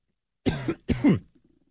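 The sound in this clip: Two sharp coughs in quick succession, then a brief, faint throat clearing, loud and harsh with no talking.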